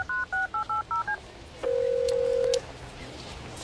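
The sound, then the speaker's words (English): Touch-tone telephone dialing: six quick, even beeps in a brisk rhythm, then a single longer steady tone of about a second, over low background hiss. “Again, dial #250, say Clay and Buck to start saving.”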